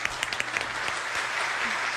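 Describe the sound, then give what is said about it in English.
Applause from an audience: a few sharp, separate claps at the start quickly merge into a dense, steady patter of clapping that continues evenly to the end. “please hold your applause until we land”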